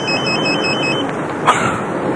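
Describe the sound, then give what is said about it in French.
A telephone ringing repeatedly, a fast warbling electronic trill that pulses for about a second over steady background hiss before dropping away. “Je vais m'énerver. Oui ? Ah, c'est toi, Nicole. Excuse-moi, mais ça n'arrête pas de sonner.”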